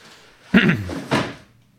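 A wardrobe door in a bedroom is worked, giving two fairly loud wooden knocks about half a second apart. The second one fades out quickly.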